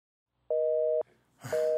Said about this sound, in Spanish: Comunica.